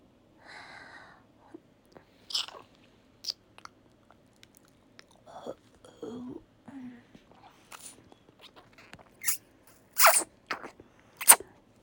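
Wet licking and slurping mouth sounds on a toy: a series of short, irregular smacks and moist bursts with soft breaths between, growing louder toward the end.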